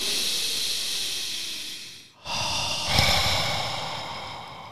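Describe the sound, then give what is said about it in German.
A person breathes deeply during a guided relaxation exercise with eyes closed: a long, airy hiss, a brief pause, then another long, breathy rush that slowly fades. “Und einatmen.”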